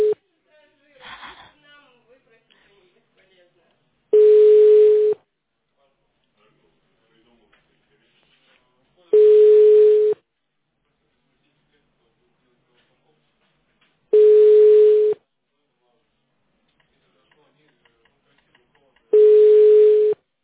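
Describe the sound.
Telephone ringback tone of a call that nobody answers: four identical steady mid-pitched buzzing rings, each about a second long, spaced evenly about five seconds apart, with near silence between them.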